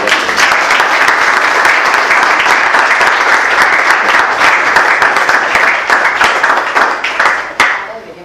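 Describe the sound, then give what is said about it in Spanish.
Sustained applause from class participants, steady dense clapping for about seven seconds before tapering off near the end, with no talk over it. “Vamos a aplaudir.”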